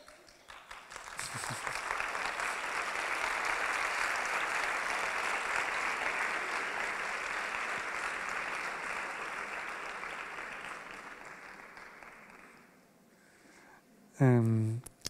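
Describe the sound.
Audience applause at a talk: clapping builds quickly into a dense, sustained wash lasting roughly ten seconds, then gradually fades before a single voice begins speaking.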